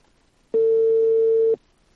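A single ringback tone sounds on an unanswered outgoing telephone call, a loud, steady, pure low-pitched beep lasting about one second with quiet before and after.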